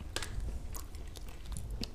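Someone eats crunchy snacks: several sharp, crisp crunches scattered over a low, steady rumble, all fairly faint and without talk.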